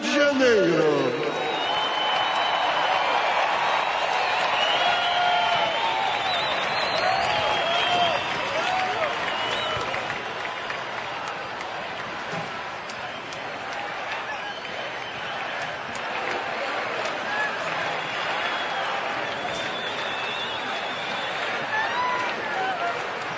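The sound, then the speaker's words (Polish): Enthusiastic cheering and applause from a large crowd of young people at World Youth Day in Rio de Janeiro. A loud, sustained roar eases slightly over time, with a voice talking over it. “I słyszymy entuzjastyczną odpowiedź ludzi młodych, którzy też cieszą się, że mogą być w tym czasie w Rio.”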